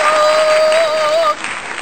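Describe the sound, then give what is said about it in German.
Short burst of applause with a steady whistle-like tone running through it, cutting off abruptly after about a second and a half. “Wir haben das Applaus für uns”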